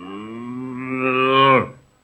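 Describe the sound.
A cow gives a single long moo, a deep tone rich in overtones. It holds a steady pitch, grows brighter and louder toward its end, then stops abruptly.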